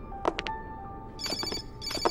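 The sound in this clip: A mobile phone ringtone sounds in bright, chirping electronic bursts: a quick group of pulses, a short pause, then two more clusters of the same rhythmic ringing. It is fairly faint, with no talk.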